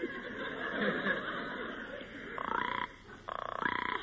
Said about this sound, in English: The frog is waiting for her mate to come home, just like the bird. Listen, she's calling to her mate.